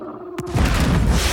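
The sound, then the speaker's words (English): A single rifle shot from a scoped gun rested on a wooden chest gives one sharp crack, then a loud, sustained low rumble that fills the rest of the moment. “A blast breaks a nearby hole and tears the creature in half.”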